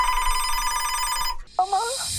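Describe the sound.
A telephone rings at home while a grandmother sits knitting in an armchair: a steady, bright electronic ringing tone sounds for over a second and then cuts off, followed by a brief, higher warbling chirp.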